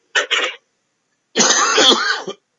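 Throat clearing from someone with something stuck in the throat: a short double rasp, a pause, then a longer, harsher rasping clear, with no talk.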